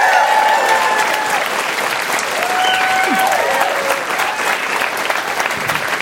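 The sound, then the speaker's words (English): A live show audience applauds with dense, loud, continuous clapping that holds steady for about six seconds. “gotta include just more applause lines in my daily life.”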